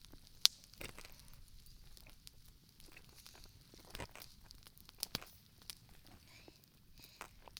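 Faint crunches from biting into the crisp, crackly skin of a roasted sweet potato: a few sharp, brittle snaps spaced irregularly over quiet background, with no talking.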